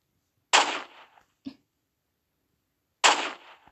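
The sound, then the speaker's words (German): Two loud gunshots ring out in a Roblox shooting game, roughly two and a half seconds apart. Each is a sharp blast with a short decaying tail, and a faint brief click falls between them. “Boom. Treffer. Oh, oh da schießt einer schon aus dem Battle Pass raus.”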